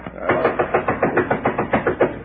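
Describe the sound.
Knocking sounds at a door at night in a bank guarded by a night watchman, heard as a rapid, regular series of many dull, muffled raps.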